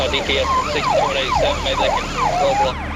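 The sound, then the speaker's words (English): A police car siren switched on during a chase, wailing loud and steady in repeated rising and falling sweeps from start to finish. “He clicks on the blue and reds, but the suspect doesn't stop.”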